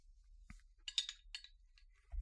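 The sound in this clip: A 4.5% beer bottle is opened with a short click of the cap, followed by a few faint clinks and hissy bursts, all quiet.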